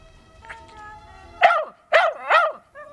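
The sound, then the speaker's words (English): A shaggy blonde dog lets out three sharp, loud barks in quick succession after a quieter stretch with faint tonal sounds in the background. “Jeez, Banana, shut your friggin' gob, okay? The shaggy blonde dog does what it's told.”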